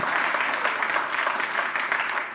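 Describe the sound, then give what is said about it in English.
A church audience in a civic center claps steadily to welcome its online church family: dense, even applause from many hands, sustained at a moderate level throughout. “so there's going to be a lot of clapping. And part of our clapping is I want to celebrate and welcome just all those who are joining us online today. Come on, those in the Civic Center, throw your hands together today and welcome our online church family.”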